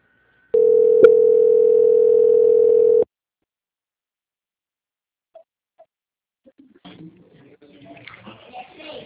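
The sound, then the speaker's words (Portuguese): A steady telephone line tone plays while a call is being transferred. It holds evenly for about two and a half seconds with a brief click partway through. Near-silence follows with a few faint clicks, then voices begin softly at the end. “Ok, vou transferir agora a senhora para a auditoria.”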